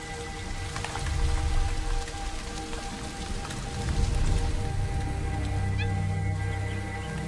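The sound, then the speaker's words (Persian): Steady rain falls during India's monsoon season, a dense, continuous patter and hiss of drops on surfaces that swells slightly at moments but holds an even, unbroken texture throughout. “بیشتر باران هند در عرض 3 ماه انجام میشه.”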